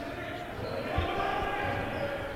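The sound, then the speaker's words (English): A basketball dribbled on the court in a college game: a few dull, low thuds of the bouncing ball under steady arena noise. “Donovan Sims dribbles out on the logo.”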